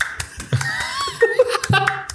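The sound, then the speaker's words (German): A person claps fingers against one hand, producing a quick series of sharp, dry clicks among laughter and voices. “Ja, Leute, ich klatsche Finger mit einer Hand, das ist weg.”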